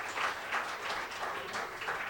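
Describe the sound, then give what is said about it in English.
An audience applauds at a live show, a fairly faint, steady wash of clapping with gentle regular swells and no single standout claps. “Give yourselves a round of applause.”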